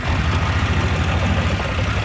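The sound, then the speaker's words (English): A utility vehicle's engine runs steadily during a tour of a horse rescue property. It makes a continuous low, rumbling drone with a rough, rattling texture and no voices. “on a tour of the property by utility vehicle”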